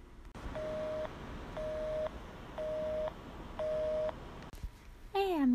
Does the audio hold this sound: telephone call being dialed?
yes

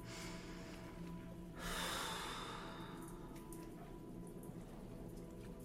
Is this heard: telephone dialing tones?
no

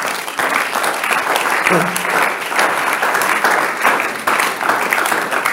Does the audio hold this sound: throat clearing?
no

